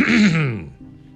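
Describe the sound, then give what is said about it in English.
A person clears their throat once, a short rasping, voiced grunt that falls in pitch and trails off into quiet. “That wasn't a throat clearing because, you know, my throat needed clearing. That was a throat clearing because of what she said.”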